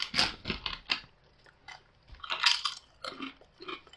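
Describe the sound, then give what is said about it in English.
Crunching of flat, original-style chili-flavored Lay's potato chips from Saudi Arabia, heard as a quiet, uneven series of crisp bites and chews, with no talk. “We're ditching the, the wavy lays, just going to original lays. These are just chili, so it's just a hot pepper.”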